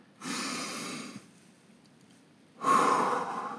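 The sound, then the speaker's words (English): Deep breaths in and out: two breathy rushes of air separated by a quiet pause, the second louder than the first, with no talking. “So listen with me. Deep breath.”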